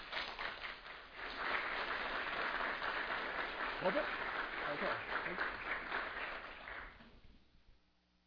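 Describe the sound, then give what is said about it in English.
Audience applause welcoming a guest speaker, a steady wash of many hands clapping that swells after the first second, holds evenly, then fades out toward the end, with a voice briefly audible over it midway. “So let's give a warm welcome to our friend.”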